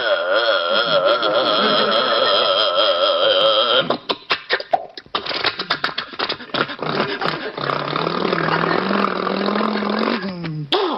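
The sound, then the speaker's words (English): A powerful bus engine starting up and idling: a loud, continuous roar, then a choppy, sputtering stretch midway, settling into a steady, rumbling idle. “boarding our sturdy little bus, we wait as our burly driver starts up the powerful engine.”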